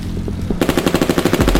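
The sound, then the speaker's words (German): Submachine guns open fire on a cyclist. After a short quiet lead-in, a loud, rapid, evenly spaced stream of shots breaks out and keeps going without pause. “Der erste Mann eröffnet das Feuer, der andere ebenfalls keine halbe Sekunde später.”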